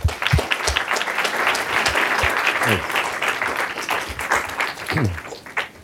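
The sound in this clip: Audience applause welcoming a professor before a lecture on James Madison: a steady wash of many hands clapping throughout, with a few sharper individual claps standing out.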